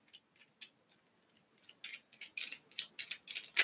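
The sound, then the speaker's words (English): Tarot cards being handled and slid back into the deck, giving many soft, quick papery flicks and clicks. They are sparse and faint at first, then grow denser and a little louder, with no talk. “okay, nope, too many cards, putting it back.”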